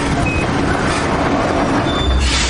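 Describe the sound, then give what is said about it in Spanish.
A train at Zima station in a 2008 war drama gives off a steady, loud mechanical rumble, with thin high squealing tones running over it throughout. “El ferrocarril reduce la marcha hasta detenerse.”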